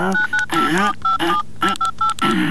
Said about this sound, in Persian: زنگ بزن دیگه، زنگ بزن. اینه زنگ میزنم، صبر کو.